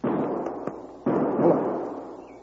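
Two loud rifle shots fired as a signal from a grove, each a sharp crack followed by a long, slowly fading rumble, with a small click between them.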